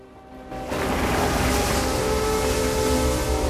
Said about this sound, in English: The mini-sub surfaces and bobs on the foamy water.